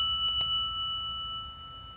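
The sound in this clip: A meditation bell rings with a steady, sustained shimmer of high tones that hold and slowly fade over a faint low rumble, with no talking.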